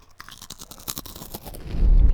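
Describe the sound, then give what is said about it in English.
Crunching and chewing of french fries for ASMR, with many quick, crisp bites in an irregular rhythm that swell into a heavier, louder chewing toward the end. No talking is heard. “Wait, I got to continue to do my ASMR fries.”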